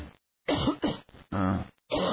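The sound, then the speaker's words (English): Harsh, repeated coughing from a person in bed at night whose cough medicine has worn off. Several loud bursts come in quick succession with brief gaps between them. “Honey, every time you cough, you kick me.”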